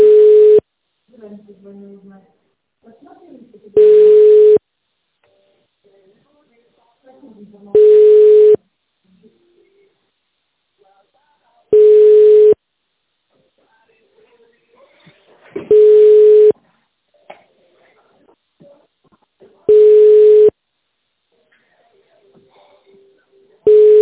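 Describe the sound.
A telephone ringback tone plays while a caller waits for an answer on a company line. Six identical steady single-pitch beeps come evenly spaced about four seconds apart, with faint sounds in the quiet gaps.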